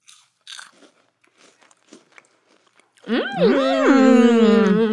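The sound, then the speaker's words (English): Crunching of puffed peanut and corn snacks: a few faint, crisp bites early on, followed by a louder, sustained tonal sound with wavering pitch. “We're going to try the Bomba puffed peanut and corn snacks. ASMR moment.”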